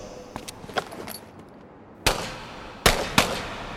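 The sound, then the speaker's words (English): Gunfire in a video game as a motorcycle is shot until it explodes: several soft, quick pops, then three loud, sharp bangs spaced apart near the end, with no voices. “I have to shoot her bike until it explodes.”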